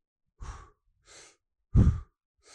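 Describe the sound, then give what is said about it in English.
Deep, forceful breathing during a guided Wim Hof–style session done lying down in a group: three full breaths and the start of a fourth, in a steady rhythm, one much louder than the rest, with no talk. “So we sort of basically did this. Breathe in.”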